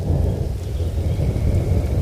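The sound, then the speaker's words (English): Steady heavy rain with rumbling thunder, a dense, continuous roar and low rolling rumble that stays loud throughout, with no voices. “Yes, rain, rain, rain.”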